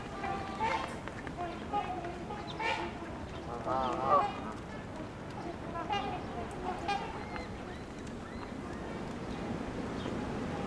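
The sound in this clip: Trumpeter swans calling at feeding time: a flock gives many loud, nasal, trumpet-like honks in an irregular series over steady background noise.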